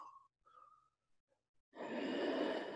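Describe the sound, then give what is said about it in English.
Ujjayi breathing during yoga, a steady, breathy rushing exhale that begins partway through and holds evenly to the end, following a few faint, brief sounds. “Activate Ujjayi breath. It's the mover of light.”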